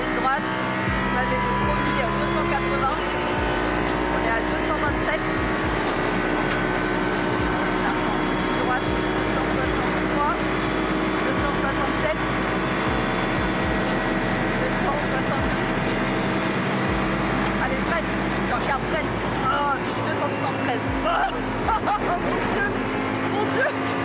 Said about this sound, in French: Enfin, on sent vraiment bien le V10, là. On sent vraiment bien la puissance du moteur.